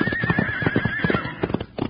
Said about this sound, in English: He's got that horse so spooked up, it doesn't know what it's doing.